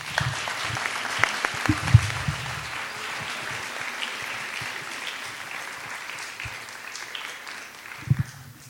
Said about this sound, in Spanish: Un aplauso para los...